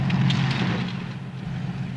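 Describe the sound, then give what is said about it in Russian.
Tanks driving across a battlefield in a steady, low engine drone and rumble, with a faint hiss over it and no distinct separate events. “Танки едут по полю. Вокруг взрываются снаряды.”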